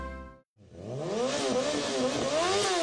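A motorcycle engine revs repeatedly, its loud, steady buzz swinging up and down in pitch several times.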